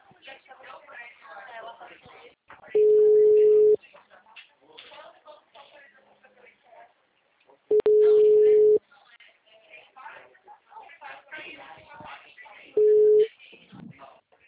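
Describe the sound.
A telephone ringback tone plays three steady, mid-pitched beeps. The first two last about a second each and the third is cut short. People talk between the beeps.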